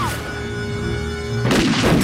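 Gunfire in a street shootout with a robber in RoboCop: a steady tonal hum gives way to a sudden loud, harsh burst of shots that continues to the end.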